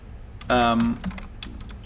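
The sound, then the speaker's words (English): Light, quick key clicks from typing on a computer keyboard, faint and scattered around a short burst of a person's voice. “I'm typing this up because I want to make sure that I read this correctly.”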